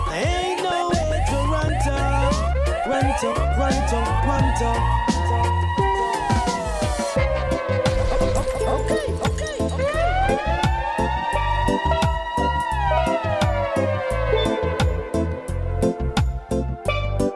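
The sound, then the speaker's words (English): A police car siren wails in repeated rising and falling glides, loud and steady throughout, with sharp rhythmic clicks running underneath. “Siren, can you hear it? The cops is coming to get you. Siren, it coming.”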